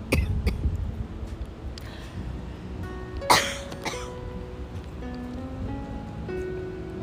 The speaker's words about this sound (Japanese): すみません飴が喉に引っかかりました